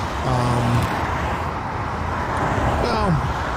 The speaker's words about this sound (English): We move as one trucker rally on the road, or vehicle rally, I should say.